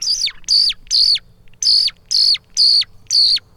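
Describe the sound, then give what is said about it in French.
Seven high, chirping whistle notes from a traditional Italian two-piece bird call made for skylarks, imitating birdsong. Each note is a quick bright slide with a dip, loud and clear, in a group of three and then four. “Questo qua sembra molto facile da fare quando tu lo fai con il chioccolo, sembra facilissimo.”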